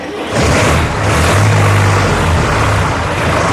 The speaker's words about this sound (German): Wir steigen um auf offene LKW